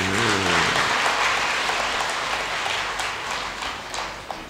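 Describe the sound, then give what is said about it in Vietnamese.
Steady applause from an elderly audience at a Buddhist dharma talk. The clapping is dense and continuous throughout and eases only slightly toward the end. “Vỗ tay chúc mừng mình đi.”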